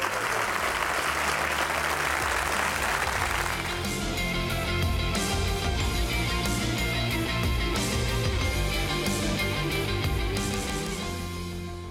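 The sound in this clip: Audience applause welcoming Beth Moore to the stage: a loud wash of clapping, strongest in the first few seconds, then mixed with sustained musical tones that carry on to the end.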